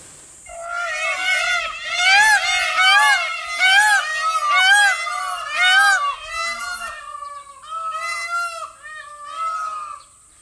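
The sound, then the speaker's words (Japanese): Peacock calls, many loud, high, nasal cries in quick succession, each arching in pitch with a cat-like mewing quality, coming in bursts across the stretch. “クジャクの鳴き声を今日はご紹介していこうと思いますが、皆さんもクジャクの鳴き声想像して聞いてください。”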